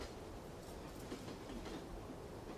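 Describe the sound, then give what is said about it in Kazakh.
Train wagon wheels clatter on rails in a steady, low, rumbling roar that stays at an even level throughout, with no other sounds. “Вагон тегермешләрі тоқылдауы, ирағая-ирағая тынып қалды.”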